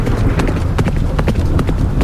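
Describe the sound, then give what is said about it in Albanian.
Horse hooves clopping on a road as a carriage travels through a rainstorm, a brisk, steady run of many crisp hoofbeats over a constant background hiss, with no voices. “Thundrat e kuajve ishin zhurma e vetme që dëgjoi në rrugën për në pallatin e mbretit.”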